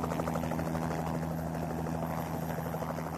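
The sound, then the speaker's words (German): A helicopter picking up climbers on the ice near Nanga Parbat makes a steady, loud rotor drone with low humming tones and a rapid chopping pulse, continuing unbroken throughout. “Dann geben sie ihre neue Position durch und werden von einem Hubschrauber in Empfang genommen.”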